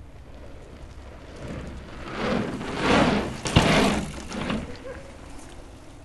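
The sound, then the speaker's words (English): A rider rolls along a long, elevated, undulating wooden planked trail, making a rumbling, rushing noise that swells and fades, with a sharp knock near the loudest point and no talk. “we grab audio of the guy showing off, riding a long, elevated, undulating, planked track called Nessie.”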